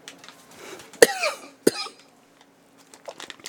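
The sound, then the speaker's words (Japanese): Two sharp, harsh coughs from a person with a persistent cough, the first rougher and longer than the second, followed by quiet, with no talk. “咳がね、なかなか止まらないんですね。”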